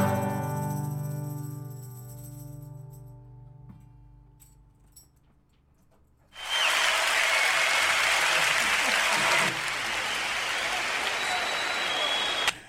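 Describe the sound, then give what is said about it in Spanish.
Applause from a studio audience of children breaks out abruptly after a quiet stretch of low talk and hum, a dense, loud, steady clatter of clapping that holds to the end. “Faltaban los aplausos.”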